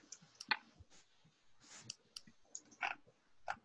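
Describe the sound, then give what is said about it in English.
Sharp mouse clicks on a square on a computer screen during an online tabletop role-playing game. Several faint, brief clicks land at irregular intervals over a low, quiet background. “somebody do the little thingy where you click on this square.”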